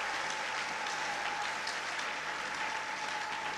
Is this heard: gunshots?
no